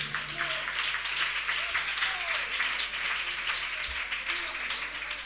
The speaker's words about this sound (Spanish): Yo voy a llamar a Héctor Castilla, le dais un aplauso grande, por favor.